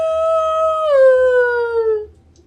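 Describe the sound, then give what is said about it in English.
A single wolf howls in a forest, a loud, sustained, clear tone that steps down slightly in pitch partway through, then slides lower and fades out, over a faint low hum. “you hear a wolf from the forest before you”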